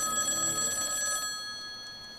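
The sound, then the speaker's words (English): A telephone bell rings in a bathroom: a bright, steady metallic ring lasting just over a second, then cutting off and fading into quiet room noise. “I am going to check out whatever that sound is. It seems to be coming from the bathroom. The phone?”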